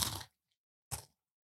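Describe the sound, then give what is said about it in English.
Someone bites into a dry granola bar, making two short, crisp crunches separated by silence. Both crunches are fairly faint. “Mmm, these are not bad. They're really dry, though. That's pretty much granola.”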